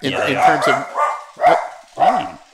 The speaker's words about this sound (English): I couldn't tell for a second if that was you or me. No, that's not me. That's my dog.